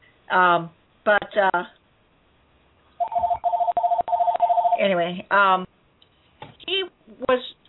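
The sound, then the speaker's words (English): A telephone rings with a rapid, pulsing electronic trill that lasts nearly two seconds, with a person talking before and after it. “you have to excuse my phone. There's nobody here to answer it. And I can't shut it off.”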